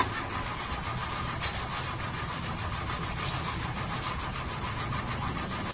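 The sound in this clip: A car engine cranks steadily but never catches, producing an even, churning drone at a moderate level throughout, with no voices.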